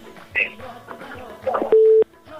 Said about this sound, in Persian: متاسفانه که تماسشان قطع شد.